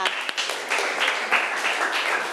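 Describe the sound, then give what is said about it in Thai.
Students clapping for a classmate who answered a question correctly in class, a fairly faint but steady patter of many hands lasting the whole stretch. “เก่งมากปรบมือให้เพื่อนหน่อยค่ะ”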